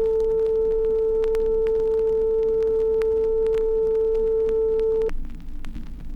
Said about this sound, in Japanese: 同じように440サイクルの信号音を鳴らします。